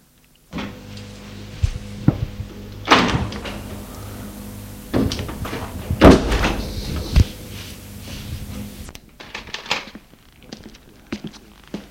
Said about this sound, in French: Une porte qui a claqué, des pas.